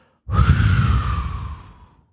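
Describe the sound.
A single deep exhale during a meditative breathing exercise: a soft, breathy rush that swells quickly and then fades slowly over about two seconds, heard alone with no talk.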